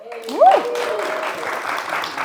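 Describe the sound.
Audience applause welcoming guests to a fashion talk. A short voice opens the moment, then steady, even clapping carries on to the end.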